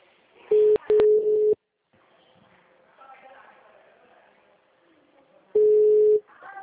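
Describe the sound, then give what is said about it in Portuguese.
Phone tones after a dropped call: loud, steady beeps at a single mid pitch, a quick cluster first, then a pause with faint voices, then one longer beep. “a ligação caiu? sim, caiu.”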